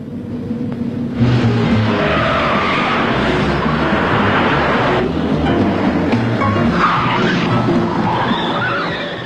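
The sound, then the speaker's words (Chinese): A car chase in a drama scene, with a loud, continuous roar of vehicles and rushing, scraping noise that stays dense and unbroken throughout. “一场精彩的追车表演开始”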